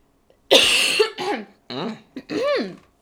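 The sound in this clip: Coughing and throat clearing from someone with something caught in the throat: a loud, rough burst followed by a few shorter, voiced, gravelly clearing sounds, with no talking.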